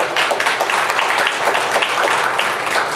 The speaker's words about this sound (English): Give the Lord a hand of